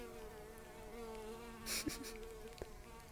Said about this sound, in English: There's quite literally a honeybee. Hello, sweetheart. I think you can probably hear it.